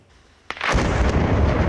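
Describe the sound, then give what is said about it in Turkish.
A planted explosive blast demolishes a Palestinian house in Beit Iksa, a village northwest of Jerusalem, set off by Israeli soldiers. A sudden sharp boom is followed by a loud, sustained roaring rumble of collapsing debris. “Patlayıcı yerleştirilen ev dakikalar içinde yerle bir oldu. Görüntüler Kudüs'ün kuzeybatısından. İsrail askerleri Bitlu beldesinde bir Filistinlinin evini havaya uçurdu.”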